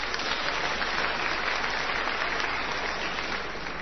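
A small round of applause: steady, dense clapping from a group holds evenly for a few seconds at a fairly low level, with no voices over it.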